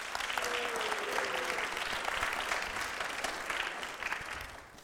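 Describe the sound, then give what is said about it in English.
Audience applause welcoming a guest speaker at an evening event: dense, continuous clapping that holds steady and eases slightly at the end. “So let's give her a warm welcome.”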